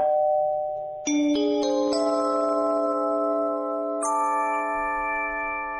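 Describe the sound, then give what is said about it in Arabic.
An electronic doorbell at the door of a home chimes a melody of several bright notes, each struck in quick succession and left ringing over the others, with one final higher note after a pause. “دوس على الجرس عشان سهيلة تفتح لنا. يلا دوس على الجرس.”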